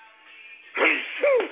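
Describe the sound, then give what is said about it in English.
A single sneeze comes after a quiet lead-in: a sharp burst, then a short voiced tail, both fairly loud. “Hold on while I sneeze, y'all. Hold on while I sneeze.”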